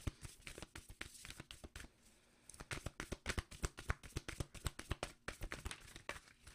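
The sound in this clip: Card handling while a self-care card is drawn from a deck: many sharp, crisp taps and flicks in an irregular run, broken by a short quieter stretch near the start.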